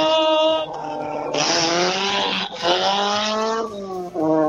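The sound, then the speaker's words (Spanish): Rally car number 4 launches at the start of the morning's first special stage, its engine screaming high with tire squeal, the pitch climbing and stepping through a few gear changes, loud and continuous. “Está en carrera. Máquina número 4, Simen Moyano. largó oficialmente el rally.”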